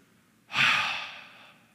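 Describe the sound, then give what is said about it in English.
A single long exhaled breath, a breathy sigh that swells quickly and then trails off slowly, heard alone against near silence. “We'll take that last breath and go,”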